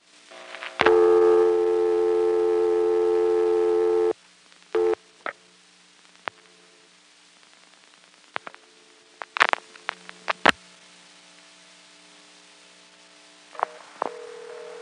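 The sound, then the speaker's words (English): Telephone line tones after dialing a vacant local code through a main tandem office: a steady tone lasts a few seconds, then scattered clicks and short blips follow over a faint hum. “I'm now dialing a local vacant code, 330.”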